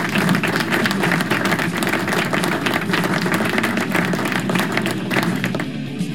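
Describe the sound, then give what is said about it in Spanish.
Dense applause from many hands clapping at once, a continuous even roar of claps that holds steady throughout and thins slightly near the end. “así que aplauso, aplauso.”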